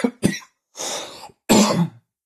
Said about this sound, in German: Vielleicht solltest du mal was nehmen bei dem Husten.